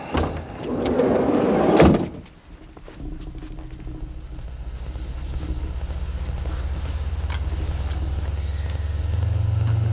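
A car door thuds shut, then a car engine starts and settles into a low, steady hum that swells near the end as the car pulls away.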